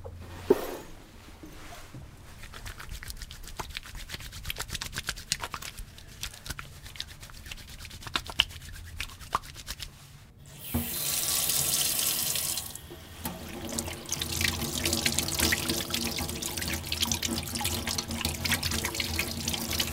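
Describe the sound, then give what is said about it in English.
Water runs from a tap into a sink as someone washes their hands, with a steady splashing hiss. Partway through, the flow turns louder and fuller, and it keeps running to the end. “That's the sound of somebody washing their hands.”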